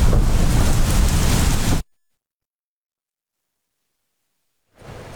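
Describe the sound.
Heavy downpour over a crowd circling the Kaaba, a loud dense roaring hiss that cuts off abruptly into silence and then returns more faintly near the end.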